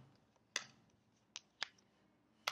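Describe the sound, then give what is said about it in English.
Tarot cards shuffled by cold hands: four sharp, quiet snaps and clicks spaced unevenly over a soft hush. “My hands are cold, so I feel like my shuffling is a little, whatever.”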